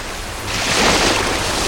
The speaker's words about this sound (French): Et nous voilà à présent sur la plage de Noirmoutier, face à la mer.